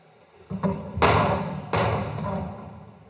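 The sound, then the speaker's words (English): A hammer strikes a mural in a school hall, a few sharp, gunshot-like thuds, two of them heavy and ringing with a lingering decay, preceded by lighter knocks. “He started to strike the mural with the hammer, mimicking the sounds of gunshots.”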